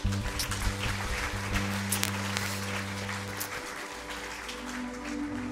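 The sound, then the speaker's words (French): Applause and cheering from a church audience at a French-language worship service, a dense, steady wash of clapping with sustained low musical tones running beneath it. “Est-ce qu'on peut acclamer notre Dieu”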